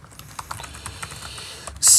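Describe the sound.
Rapid typing on a computer keyboard while searching IMDb: many light, irregular keystroke clicks tap along steadily, then a sudden louder noise cuts in at the very end.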